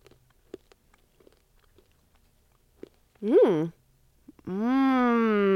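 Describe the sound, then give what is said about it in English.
Faint crunching of a small, round, sweet and savory snack like corn nuts: a few soft, sharp crunches spaced apart, followed by louder voices speaking. “It's like little things, so I grabbed a few. What do they feel like? They feel kind of like rounder corn nuts or something. Let's see what they taste like.”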